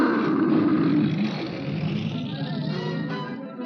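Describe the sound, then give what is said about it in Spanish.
A lion in a 1954 animated cartoon lets out one long, loud, growling roar. It starts at full strength, holds steady, then eases off slightly toward the end. No talk is heard over it. “Quizá no oyeron el rugido del rey. El rey está molesto y ruge a la ciudad.”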